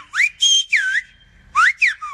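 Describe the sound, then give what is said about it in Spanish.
Whistled Silbo Gomero, the whistled language of the Canary Islands used to talk across ravines. Six loud, clear whistles come in two groups of three, each sliding up or down in pitch, with no voices. “El silbo gomero es un lenguaje silbado practicado por algunos habitantes de Canarias para comunicarse a través de sus barrancos.”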